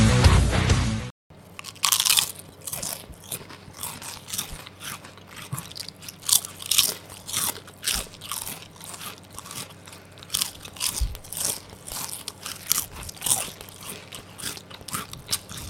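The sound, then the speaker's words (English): Crunching on potato chips: a short burst of hiss, then many loud, crisp bites and chewing crunches in an irregular rhythm that continues throughout. “How are the chips, boys? Oh, so nice. They're yummy. I can feel the flavours floating on my tongue.”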